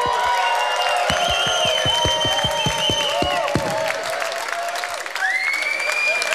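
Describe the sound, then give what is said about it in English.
An audience applauds and cheers at a live stand-up gig: continuous clapping over a run of regular low thumps in the first half, topped with whoops and shouted cheers. “Make some fucking noise for yourself.”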